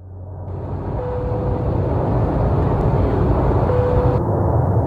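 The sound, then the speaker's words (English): Airplane engine drone as the aircraft descends into Byron Ballina Gateway Airport, a steady loud rumbling roar with a thin tonal whine, swelling slightly at the start and then holding even. “This is your captain speaking. We've commenced our descent into Byron Ballina Gateway Airport.”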